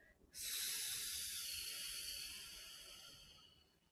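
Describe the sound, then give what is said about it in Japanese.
A single long, steady breath hisses through the air during a guided neck-stretching exercise. It starts abruptly, holds a broad airy texture and slowly fades over several seconds. “はい、吸って吐く。”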